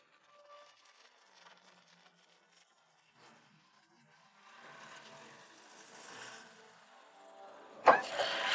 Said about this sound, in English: The dump truck pours gravel into the crack.